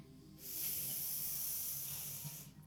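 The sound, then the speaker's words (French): One long, deep inhalation during a guided breathing exercise, a soft, steady, airy hiss lasting about two seconds and heard alone. “Et inspirez,”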